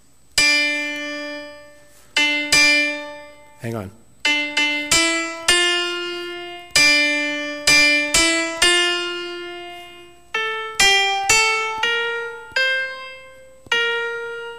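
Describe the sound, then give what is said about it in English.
A hymn melody in D minor is played as a sequence of separately struck notes that shift in pitch, each ringing and then decaying. A brief spoken aside interrupts partway through. “This is the song written in D minor.”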